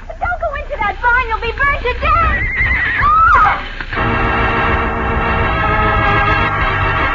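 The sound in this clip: Horses neighing in a burning barn: several loud, shrill whinnies crowd the first half, then give way to a dense, continuous noise that fills the rest.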